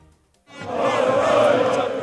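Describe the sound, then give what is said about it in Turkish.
Fenerbahçe fans celebrating in the street on Bağdat Caddesi in Istanbul after the club knocked out Lazio to reach the Europa League semifinal. Near-silence gives way to a loud, sustained crowd roar that swells and stays full. “Fenerbahçe'nin Lazio'yu eleyerek UEFA Avrupa Ligi'nde yarı finale kalmasıyla İstanbul'da binlerce taraftar sokağa döküldü. Kutlamaların en yoğun olduğu nokta yine Bağdat Caddesi'ydi.”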